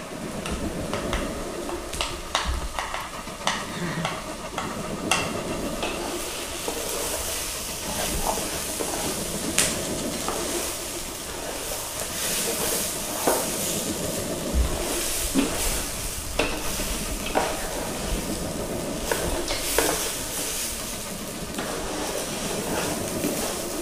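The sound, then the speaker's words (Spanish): Food cooks in a pan with a steady sizzling hiss, broken by many small scraping and clicking stirs in an uneven rhythm. It is fairly quiet throughout, with no talk. “Estoy absolutamente hipnotizada por el acto de la cocina.”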